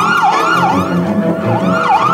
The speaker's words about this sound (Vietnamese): một hồi còi hú lên thê thảm của xe cấp cứu làm anh bừng tỉnh